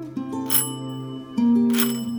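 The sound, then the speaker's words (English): A doorbell rings in two bright, sustained metallic tones, the second stronger, heard alone without talk. “The doorbell rings.”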